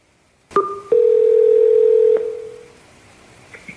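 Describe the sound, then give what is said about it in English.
Telephone tones before a phone call: a short two-pitched beep, then a steady held tone lasting over a second that drops and fades, followed by silence and one faint brief blip. “for ACES Top 10 Takeaways, if I'm going to call a random author here and sell him on why he should summarize his book on my channel, here's how the introduction would sound.”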